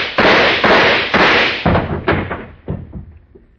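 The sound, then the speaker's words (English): Gunshots as a gun is emptied: a rapid string of sharp, loud cracks, each with a short ringing decay, spaced about half a second apart and growing fainter toward the end. “Well, the gun's empty now. I carried this for 3 years. I never used it.”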